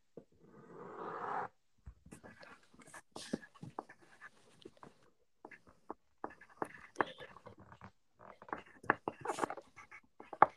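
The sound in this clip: A pen scratches words onto paper during a word game, making quiet, irregular scraping strokes and taps, with a brief rougher scratching burst at the start.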